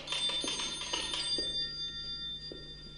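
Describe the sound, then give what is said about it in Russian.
A doorbell rings in a short burst of repeated bright electric rings, clear at first and then fading into a steady low background with a few faint knocks. “Звонок прерывает ее раздумья.”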